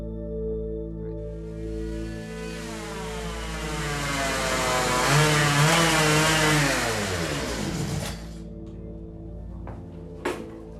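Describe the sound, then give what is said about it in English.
Motorcycle engine droning steadily as a rider crosses open prairie and pulls into a gas station; the harmonic engine note builds, swings upward and then drops, followed by a sharp click near the end. “rides along the prairie on her motorcycle.”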